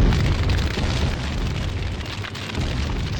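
A bomb explosion sound effect of the MOAB type: loud, sustained roaring rumble with heavy low-end and broad noise, holding steady for about three seconds without distinct separate blasts, and no voices.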